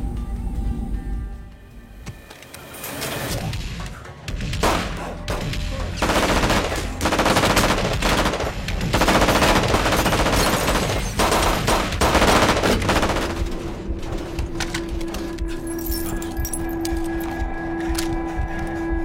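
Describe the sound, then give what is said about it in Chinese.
Pistol gunfire in the Breaking Bad drama as Hank shoots a gang boss in the head. Loud shots crack in rapid, repeated bursts over a dense, noisy background. “话不多说，直接拔枪爆头。”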